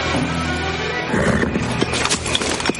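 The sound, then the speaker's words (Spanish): Hooves clip-clop and a horse whinnies as a medieval knight mounts and rides off into a forest, a busy, clattering run of hoofbeats. “Él avanza a hurtadillas y monta en un caballo”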